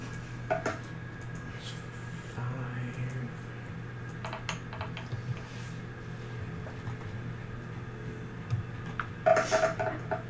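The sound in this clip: Dice rolling on a table during a tabletop role-playing game, a 3d6 damage roll; a brief cluster of sharp rattling clicks near the end, over faint background clatter and low hum.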